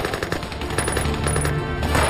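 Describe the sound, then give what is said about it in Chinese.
Machine-gun and rifle fire erupt in battle as Eighth Route Army troops, hidden on both sides of a gorge at Yansuya village, ambush a Japanese vanguard. Dense, rapid bursts of shots run continuously over a heavy, rolling roar. “当日军先头部队进入燕宿崖村后，埋伏在峡谷两侧的八路军在司令员杨成武的指挥下一起开火。”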